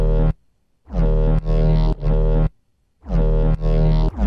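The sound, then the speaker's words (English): Unprocessed synth bass straight out of the Serum synthesizer, resampled from another synth and pitched an octave above the sub, repeats many short, thick low notes with buzzy harmonics in a steady chopped pattern with brief gaps, loud and alone. “So without all of the processing, straight out of Serum, it sounds like this.”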